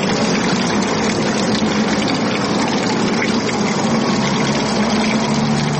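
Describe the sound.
Water running from a public fountain in a park: a steady, loud rushing splash that holds constant throughout, with no voices.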